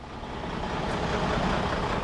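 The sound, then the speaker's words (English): Tanker trucks at a natural gas processing station give off a faint, steady low engine rumble. The drone holds level throughout with no distinct events and no talk. “Tanker trucks are a constant presence in a processing station.”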